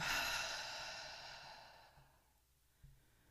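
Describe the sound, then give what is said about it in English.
A long, deep exhale through the mouth during a guided breathing exercise: a breathy sigh that starts fairly strong and fades steadily over about two seconds, followed by faint, quiet breath noise. “So inhaling through the nose, exhaling through the mouth. Let's go. Inhale. Exhale, let it go.”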